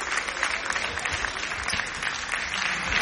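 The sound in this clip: Sustained applause from a crowd at a prison visit by the Pope, dense steady clapping at moderate volume with a faint voice talking over it.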